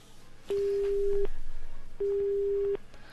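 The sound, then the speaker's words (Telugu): Telephone busy signal after a dropped call on a radio phone-in: two steady electronic tone bursts of equal length with a pause between, with no talk. “Okay, maybe let's try to connect her again on air. Call drop అయినట్టుంది.”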